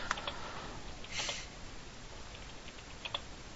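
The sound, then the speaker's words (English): Faint typing on a computer keyboard while a message is sent, with scattered soft clicks, a brief louder clatter early on and a few sharper keystrokes near the end. “Type. Sorry, I just had to send a message.”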